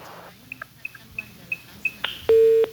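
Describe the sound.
Telephone tones as a call drops: a series of short, high beeps over a hissy line, ending in a louder sustained low tone.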